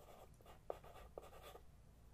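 Faint scratching strokes of a pencil writing on a box, soft and steady with two slightly sharper taps among the strokes.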